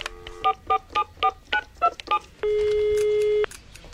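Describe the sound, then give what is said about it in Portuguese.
Telephone keypad tones as a number is dialed: seven short, evenly spaced beeps, then a single steady tone lasting about a second. “Deixa eu ligar de novo.”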